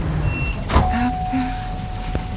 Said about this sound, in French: Je pense que c'est mon tram.